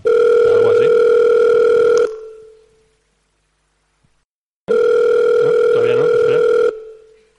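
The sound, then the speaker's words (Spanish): A telephone signals an incoming call with two long, steady electronic tones of about two seconds each, loud and separated by a silent gap. “¿Y esto? ¿Entre una llamada?”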